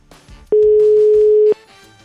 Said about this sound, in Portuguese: Vamos ligar. Já tá tocando, tá tocando,